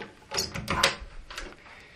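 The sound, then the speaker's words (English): A door at the front of a corridor being opened: a few short, bright clicks and clatters bunched close together, then a softer knock. The sounds are moderately loud, with no talk. “Now, first of all, I'm going to take the door in front.”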